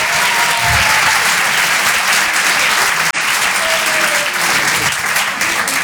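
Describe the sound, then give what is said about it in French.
Dense audience applause fills a comedy club, a loud, steady roar of clapping that runs throughout with only a brief dip midway. “Faites du bruit, s'il vous plaît, pour Certes Mathurin.”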